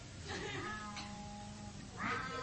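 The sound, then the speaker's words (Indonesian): A fierce cat meows two or three times in drawn-out, tonal, harmonic cries. The cries are fairly quiet, with a brief gap between them, over a low background murmur. “Lah opo ngiku kucing garang.”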